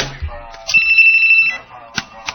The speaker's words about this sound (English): hold on, let's take this phone call.